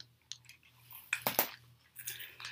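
Gum chewing, close and quiet: several soft, wet squishing and smacking bursts arrive at an irregular pace, with short pauses between them.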